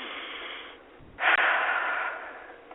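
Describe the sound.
A person breathes deeply: two long, breathy rushes of air, the second louder and fuller, then slowly fading, with no talk.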